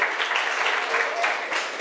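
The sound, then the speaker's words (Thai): Applause from pupils in a classroom, clapping for a classmate who answered correctly during a lesson on measuring tools. Dense, steady clapping continues evenly through the brief moment. “เก่งมากปรบมือให้เพื่อน”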